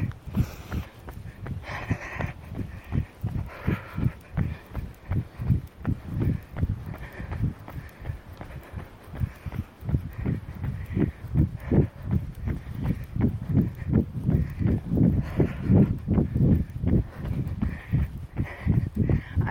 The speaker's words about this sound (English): Right, and let's jog.